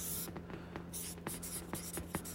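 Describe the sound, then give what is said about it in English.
Handwriting with a pen or pencil while noting marketing channels and revenue: a few short, scratchy strokes with brief pauses between them, fairly faint and steady, with no talk over them. “But let me just write here.”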